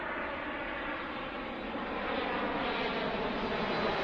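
An aeroplane flies over houses near an airport, a steady, broad engine roar that grows slightly louder over a few seconds, with no voices.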